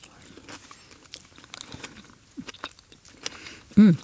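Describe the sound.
Someone eats a crunchy dessert topped with Biscoff cookie crumbs, sauce and sour, rich components, making scattered small crunches and soft chewing sounds, ending with a brief voiced hum.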